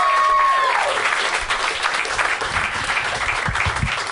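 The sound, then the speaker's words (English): Audience applause and cheering as a comedian is introduced on stage, a loud sustained wash of clapping and crowd noise running through the whole stretch. “Give it up for Tanya Nascimento! Yay!”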